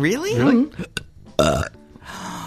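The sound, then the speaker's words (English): A deliberate burp done on cue sounds as a single low, rough croak, set between stretches of people talking. “That was my burp. Well, no one heard it. You didn't have to admit to it. Oh, I can do them on cue.”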